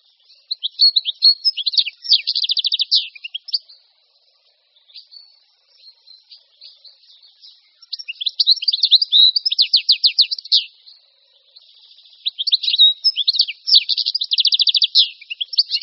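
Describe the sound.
Goldfinch song: rapid, bright, high twittering chirps in long bouts, loud near the start, in the middle and at the end, with quieter, sparser calls between them.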